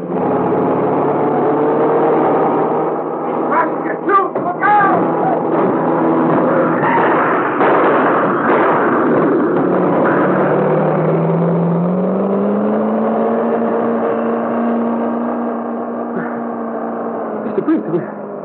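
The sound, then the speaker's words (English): A car engine roars at speed as the car drives at a police roadblock, a steady, loud droning whir that climbs in pitch late in the run. No distinct crash stands out. “Safe. You crash right through barricade. We're safe. Just a dented fender.”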